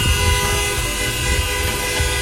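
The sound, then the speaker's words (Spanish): Car horns honking in a traffic jam, a loud, continuous blare of overlapping horn tones with no break and no voices. “Sí, sube la ventana mejor, mucho bocinazo.”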